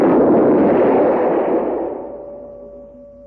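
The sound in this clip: A single loud gunshot blast that fills the opening, followed by a long rumbling tail that slowly fades out over about three seconds.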